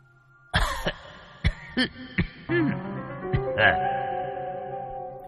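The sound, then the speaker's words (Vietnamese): Soft, hacking coughs in a quick, irregular series, mixed with throat clearing, heard over a steady low tonal drone. “có tiếng ho hành khạch khẽ vang lên”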